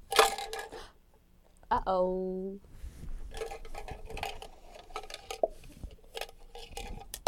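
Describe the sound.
Small objects clink and rattle as a child shakes and stirs them in a container. The scattered clinks and bursts of rattling come and go under intermittent voices.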